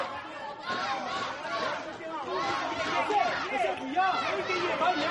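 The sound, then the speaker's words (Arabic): A Kazakh crowd cheering for a boxer at a boxing match, a thick mass of shouting and chanting voices that stays fairly loud and steady throughout. “الجماهير الكازاخية تشجع أورال بي آيبك”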